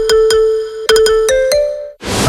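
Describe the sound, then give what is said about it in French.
Phone notification alerts: a series of bright electronic chimes in quick succession, loud and clear, with the last tones stepping higher, then a short burst of noise at the end. “3 notifications, 10 postes, 5 alertes.”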